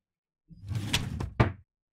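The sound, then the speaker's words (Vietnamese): Door lock being unlocked at home past midnight: a burst of rattling metallic clatter lasting about a second, ending with a sharper click. “Một lúc sau thì tôi nghe thấy tiếng lạch cạch mở khóa. Tôi đoán chắc là mẹ về.”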